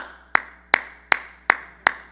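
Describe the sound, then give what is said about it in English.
One person claps their hands five times in a slow, even rhythm, each sharp clap followed by a brief decay. “Now, I'm going to clap. Don't you guys clap.”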